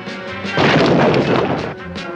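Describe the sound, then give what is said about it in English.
A wall-smashing arrow strikes and explodes in a single loud, broad burst that roars and rumbles for about a second before easing off, with no voices over it. “One wall-smashing arrow coming up.”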